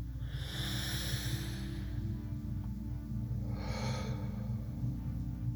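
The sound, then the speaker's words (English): Deep breathing during a guided meditation and relaxation exercise: two soft, breathy rushes of air, quiet and unhurried, over a steady low hum, with no talking. “So first, take a deep breath.”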